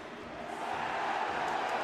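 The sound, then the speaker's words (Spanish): Football stadium crowd roaring and jeering, demanding a yellow card after a foul during a Portland versus New York City soccer match; a dense, steady roar that holds without a break. “El público pidiendo tarjeta amarilla.”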